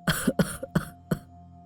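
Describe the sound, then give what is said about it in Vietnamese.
An ailing, dying old man coughs repeatedly while clutching his chest: four harsh, fairly loud coughs, each trailed by a brief rasp, spaced evenly with no talk around them. “Nói được một câu, ông lại ho lên khù khụ, rồi ôm ngực thở dốc.”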